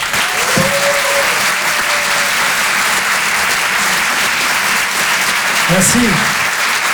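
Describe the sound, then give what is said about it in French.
Audience applause and cheering at a live show: dense, loud clapping holds steady throughout, with a few shouts and whistles rising above it. “Je vous demande de l'encourager et de faire un maximum de bruit, s'il vous plaît, pour Adrien Montowski.”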